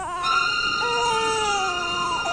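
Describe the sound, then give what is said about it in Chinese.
A baby crying: a continuous, high wailing cry with a strong tonal pitch, briefly breaking and then carrying on in a long drawn-out wail that drifts slightly in pitch. “注意地听着婴儿的啼哭声，他的耳朵在微微地颤动”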